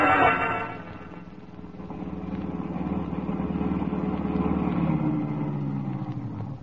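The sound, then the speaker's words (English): A car engine rumbles in a low, steady drone as the car pulls up and parks. The hum swells slightly midway and eases a little near the end. “I pull up and park. As I turn the motor off”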